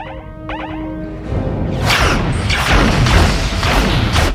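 Science-fiction phaser fire aimed at an energy entity: a thin electronic whine gives way to loud, crackling bursts of blasts that keep pulsing to the end.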